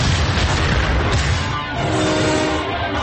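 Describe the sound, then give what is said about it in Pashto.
A bomb explodes in a Hindi crime film about Mumbai gang wars, a loud, deep rumbling blast that holds heavily for a moment, then rolls on in a lower, slowly easing roar. “بم اوف ہو گیا رے”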